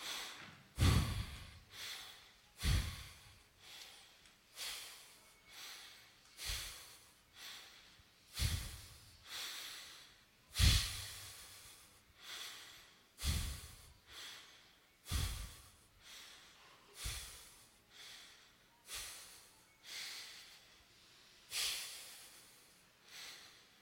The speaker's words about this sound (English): Four short breaths followed by one long breath four times.